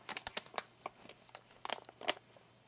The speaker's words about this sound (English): Let me type it.